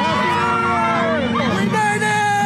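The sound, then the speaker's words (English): A New Year's Eve crowd in Times Square cheers and shouts at the ball drop, a continuous loud wash of many voices with whoops rising above the babble. “A giant sparkling New Year's Eve crystal ball came down to start 2024, with confetti raining down on those in Times Square who were cheering, hugging, kissing, and shouting.”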